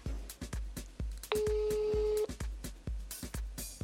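Telephone dialing and a busy signal: a rapid, regular series of short clicks runs throughout, and a steady electronic tone sounds for about a second in the middle.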